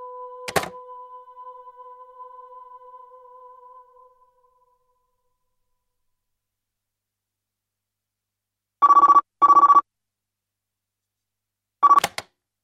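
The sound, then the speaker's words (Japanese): Telephone ringing during a call attempt: a click and a fading two-note tone at the start, then after silence two short electronic ring bursts close together and a third brief one, bright and mid-pitched. “マヤは今、カズキに電話しようとしてるところだよ”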